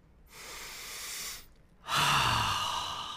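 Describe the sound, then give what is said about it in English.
Audience members at a science talk take a deep breath together. Two long, airy breath sounds are separated by a short pause, and the second is louder and brighter. No talk is heard. “So audience members, take a deep breath.”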